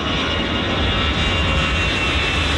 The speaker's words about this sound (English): for not hearing anything over the sound of hundreds of flights taking off, and definitely for not hearing this.